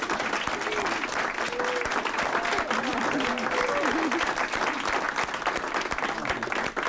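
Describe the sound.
Audience applause welcoming a band from Kentucky onto a stage in Wisconsin, dense steady clapping that fills the whole clip, with some cheering voices rising above it.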